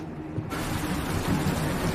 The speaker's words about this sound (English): Rivers and Bear run toward a cottage in a downpour